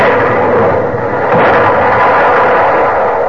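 Ship's cannons open fire on a fleeing vessel, aimed at her mast, in a loud, continuous roar of heavy gunfire. The booms blur together with no clearly separate shots.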